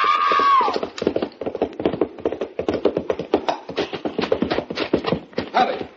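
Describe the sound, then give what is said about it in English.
A horse gallops hard in a race toward a corral gate, where it stumbles over a low bar. Its hoofbeats are loud, rapid and rhythmic, a dense run of pounding thuds that fills the whole stretch. “The horse stumbled over that lower bar and threw her.”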